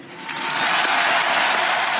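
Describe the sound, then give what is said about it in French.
A crowd applauds along a funeral procession route in Paris in tribute to a deceased singer. Dense, steady clapping swells from a softer start and then holds loud and continuous. “je vous propose, où que vous soyez, qui que vous soyez, pour lui dire merci, pour qu'il ne meure jamais, d'applaudir Monsieur Johnny Hallyday.”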